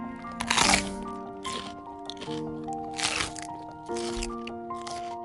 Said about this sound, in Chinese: 爱孟奇与奥帕享用着彩色种子沙拉，开心的聊着天。